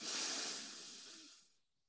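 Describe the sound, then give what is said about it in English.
A single deep breath during a guided breathing exercise: a soft, airy rush of air that starts at its strongest and fades out over about a second and a half, quiet and alone. “So please take a deep inhale and exhale. Inhale again.”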